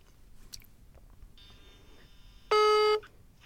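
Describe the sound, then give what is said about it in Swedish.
Ringing tone on an outgoing phone call to someone at home: a faint, steady high tone, then a loud, buzzy beep lasting about half a second. “Och då ska vi ringa upp Mikael Smeds för han deltar hemifrån”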